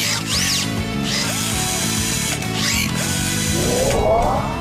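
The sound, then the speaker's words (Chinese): A screwdriver whirs as it is used to repair a boat, giving a few short, whining mechanical bursts with a rising sweep near the end, all over steady background music. “船马上就会修好了。啊，螺丝起子。”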